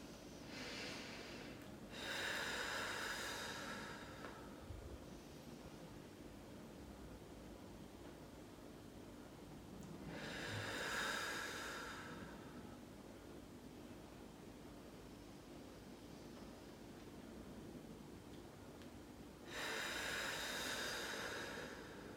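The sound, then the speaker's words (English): Three slow, deep breaths, each a long, soft whooshing rush of air lasting a second or two, separated by quiet pauses, with no talking. “if you could just take a few deep breaths in and out.”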